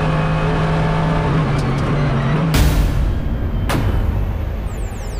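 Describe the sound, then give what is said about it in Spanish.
A Mercedes car leaves a bend onto a straight at full throttle, giving a loud, continuous engine roar with two sharp whooshing surges partway through. “La vemos salir de la curva y tomar la recta hacia nosotros. Acelerando a tope.”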